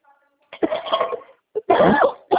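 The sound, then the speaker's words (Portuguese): Coughing from someone sick with Covid, a few harsh, throaty bursts in uneven clusters separated by short pauses, moderately loud. “desculpa, eu tô tossindo porque é uma tosse que dá”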